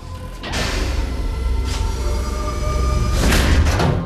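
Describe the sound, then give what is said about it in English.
Door closing as a room is entered during a tense armed search, giving a couple of dull thuds over a steady tonal hum that runs through the whole clip. “Closing the door and turning the light on”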